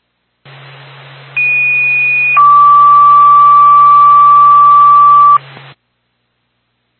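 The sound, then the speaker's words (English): A fire department dispatch paging tone comes over radio for a fire alarm call. A shorter high tone drops to a long, steady lower tone, over constant static hiss and a low hum. “Franconia Fire Department, second tone for 206 Wells Road.”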